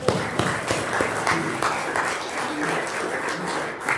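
A church audience applauds to welcome a reader up to the microphone, many hands clapping in a steady, dense patter that holds for about four seconds.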